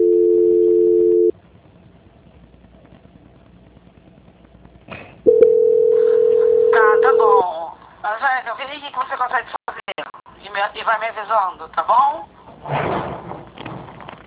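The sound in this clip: Steady telephone tones on the line during a call transfer: a brief tone, a quiet gap, then a second longer, steady mid-pitched tone, after which people talk.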